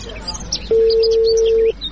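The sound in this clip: A telephone is dialed: a single steady electronic beep lasts about a second against faint background noise.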